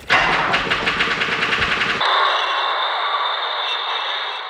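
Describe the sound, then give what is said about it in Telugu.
A bus engine starts and pulls away, opening with about two seconds of rhythmic, knocking chugs before settling into a steady, higher-pitched hum and hiss that slowly fades. “Conductor గొడవ పెట్టేస్తున్నాడు, నడు నడు. ఇదిగోనయ్యా, ఆ బామ్మగారి మనవడు పుచ్చకాయ ముక్కల దుకాణం దగ్గర ఉన్నాడు, ఇక బస్సు ఎక్కడ ఆపకుండా తొందరగా పోని. Right right.”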